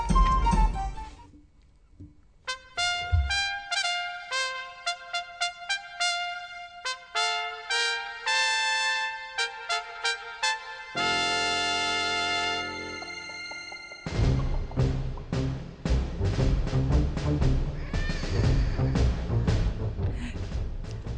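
Theme tune of the Catalan TV series La memòria dels cargols opens with low notes, runs into a string of plucked melodic notes, holds a sustained chord, then swells into a fuller, denser ensemble passage.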